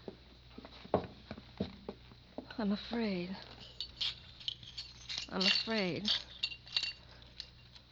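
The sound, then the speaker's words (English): Sharp clinks and rattles of broken pieces from a dropped object being gathered off the floor, several irregular taps scattered under people talking. “I dropped it. No, don't pick up the pieces like that. You'll cut yourself. I'll do it.”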